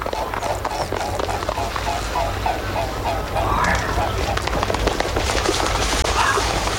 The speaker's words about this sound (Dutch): Bij Alphen Gelderland, hij schrijft: een groep knobbelzwanen vloog een stukje en landde toen recht voor me